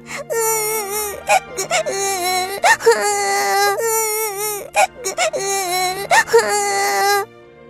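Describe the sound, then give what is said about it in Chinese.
High, wailing crying for a little rabbit in a children's story, coming in repeated sobbing bursts with wavering, bending pitch and short gaps between them, loud and alone. “小兔子要到河对面去采蘑菇，这可怎么办呀？小兔子着急地哭了起来。”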